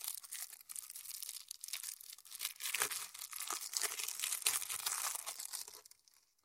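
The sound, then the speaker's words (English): Crinkling plastic wrap being torn off a Fairytale Gloom card game box, a continuous quiet crackle of tearing and crumpling that runs steadily throughout and fades away at the end. “So, I'm going to unwrap it first so that there's only a little bit of thing and then I can crossfade too. So so I'll stop talking and unwrap it and maybe leave the sound effect in.”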